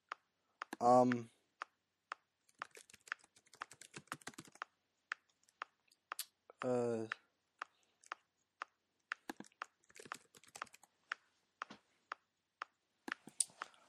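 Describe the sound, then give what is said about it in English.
Someone types on a computer keyboard in many quick, irregular bursts of sharp key clicks with short pauses between them. Two brief voiced sounds break in early and midway. “I just typed ladybugs into Google Images”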